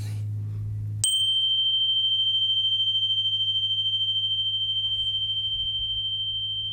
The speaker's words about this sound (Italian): questa qui si chiama Energy Bar e ha una frequenza di 528 Hz, altamente curativa.